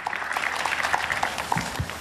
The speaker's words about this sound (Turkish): Gençler olarak, sporcular olarak kendisine büyük alkış, teşekkürler.